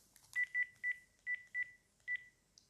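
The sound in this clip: A telephone number being dialed: six short, clear keypad tones in an uneven rhythm, then one fainter, higher beep, all fairly quiet.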